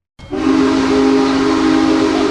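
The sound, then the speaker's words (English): A Big Boy steam locomotive's whistle blows during a stop at a railroad museum in Altoona, Pennsylvania, a loud, sustained, chord-like tone that starts abruptly and holds steady with a breathy hiss underneath. “steam locomotive, has rolled into Altoona for its last multi-day stop in Pennsylvania.”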